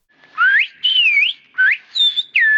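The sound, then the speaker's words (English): Whistled Spanish in the Canary Islands whistled language: five loud, clear whistled syllables in quick succession, each gliding up or down in pitch, heard alone with no voices. “This kind of whistled speech isn't specific to the Canary Islands.”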